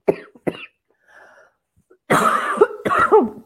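Someone coughs from a tickle in the throat: two short coughs, a faint breath, then two longer, harsh, rasping coughs close together.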